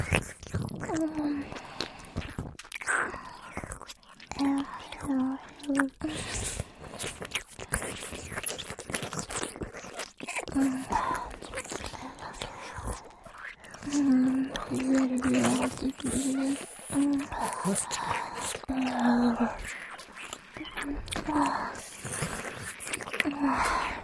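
Wet ear-licking mouth sounds, with the neck being played with at the same time: a continuous stream of soft slurps, smacks and moist clicks, irregular and fairly quiet, with no talking.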